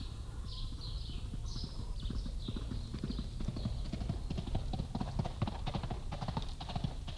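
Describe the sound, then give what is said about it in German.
Hooves of a galloping horse heading toward a ranch beat out a fast, steady clip-clop that runs throughout, moderately quiet and unbroken. “Das ist Miguel Paramos Pferd, das zur Medialuna galoppiert.”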